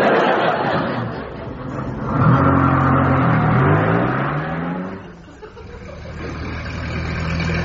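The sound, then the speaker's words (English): A car engine runs with a steady, loud rumble, and its revs climb audibly in pitch as the vehicle is urged to speed up, before settling back to a rough, even drone. “Come on, Jones, get a move on. I do my best, sir. This vehicle is very sensitive. It likes to be coaxed. Oh, we haven't got time for that. Put your foot down.”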